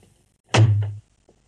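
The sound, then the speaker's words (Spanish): A door being opened, heard as a single dull, low thunk that lasts about half a second, with a faint tick shortly afterward against near silence. “Edison la sigue. Abre la puerta.”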